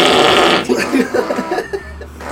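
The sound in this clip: A fake fart blown with the lips and mouth, a voice imitating the sound: a loud, raspy, sputtering blast that breaks into a string of short fluttering pulses and then trails off into a low rumble.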